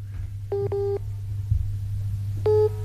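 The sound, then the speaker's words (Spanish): Telephone busy tone after a call dropped: three short, steady electronic beeps, two close together and one later, sounding clearly over a constant low hum. “Creo que se fue. Porque entró otra llamada. Se cortó la comunicación.”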